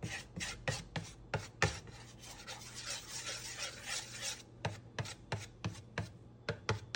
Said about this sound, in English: Throw a little drizzle, a little oil on the pan, not too much, and smear it around with the spatula so it's evenly spread.